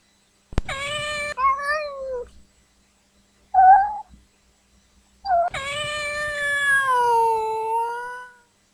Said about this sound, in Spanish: Gato asustado.